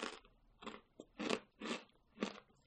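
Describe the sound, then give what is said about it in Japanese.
A hard bean cracker is crunched in several crisp, brittle bites that come in an uneven rhythm, each a short crackly burst. The crunching is faint, with no speech. “豆まんといえばこのカチカチだよ。”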